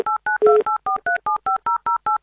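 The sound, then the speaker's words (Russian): A telephone number is dialed on a touch-tone keypad: eleven short dual-tone beeps in a quick, even rhythm. The third beep is louder and longer, with a burst of noise. “Набран номер телефона”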